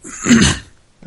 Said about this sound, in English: clearing his throat without muting the mic.